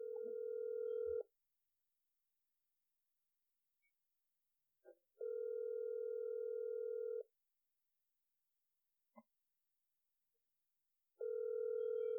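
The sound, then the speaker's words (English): Ringback tone of an outgoing telephone call ringing out: a steady, low electronic tone in bursts about two seconds long separated by roughly four-second gaps, three bursts in all, with faint clicks between and no talk. “So let's call this first guy here.”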